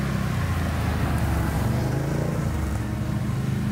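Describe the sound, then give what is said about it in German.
Steady engine drone of a quad bike driving through a forest at night, a continuous low rumble that holds at an even loudness throughout with no voices. “Was will man nachts mit einem Quad im Wald?”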